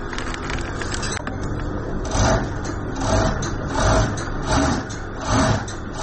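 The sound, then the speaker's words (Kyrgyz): Sewing machines run in a small tailoring workshop, giving a steady mechanical whir that swells and eases at regular intervals, with no talk over it. “Чакан бөлмө, бир канча тигүү машинелери, бир бурчунда үтүк тактасы. Бул катардагы кийим моңдоочу жай.”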